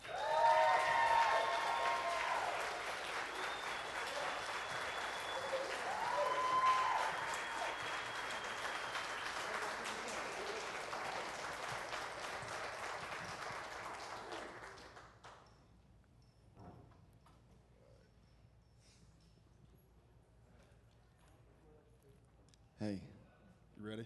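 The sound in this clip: Audience applause welcoming a guest onstage at a church service: dense, sustained clapping that holds loudly for about fifteen seconds, then thins out and dies away into quieter room noise with a few scattered sounds.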